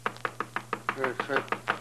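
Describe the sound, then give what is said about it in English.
A knock at the door of a room, heard as many rapid, evenly spaced raps at a moderate level. “It was just before daylight when the knock came at the door of our room.”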